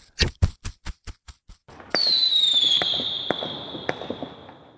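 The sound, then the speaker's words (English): Rocket launcher firing and exploding: a quick string of about seven sharp, punchy bangs, then a bright high whistle that slides slightly downward over scattered crackling pops. “I thought the boom would have been bigger.”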